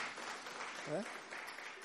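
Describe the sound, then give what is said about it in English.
Faint hand clapping from an audience at a religious talk, a soft continuous patter with a brief voice rising above it near the middle. “Yes, excellent answer. Give a hand clap.”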